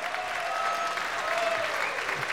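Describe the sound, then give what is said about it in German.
Audience applause for a folk music group with violin, Styrian accordions and guitar: a thick, continuous wash of clapping, steady and fairly loud throughout. “ich würde sagen, die Flerragitschen haben sich mal einen großen Applaus verdient.”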